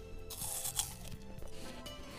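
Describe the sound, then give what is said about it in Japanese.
A crisp bite into an Akane apple at an apple orchard gives one brief, sharp crunch near the start, then softer crackling chewing, with no talk. “甘酸っぱくて、うん、これは秋あかねですね。 わかるんだ。じゃあちょっと秋あかねいただきたいと思います。”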